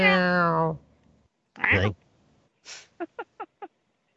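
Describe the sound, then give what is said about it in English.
A person imitates a cat with a drawn-out meow-like vocalization, then a second, shorter, higher meow. A breathy puff follows, then four quick, evenly spaced short chirps. “Oh, let me talk cat.”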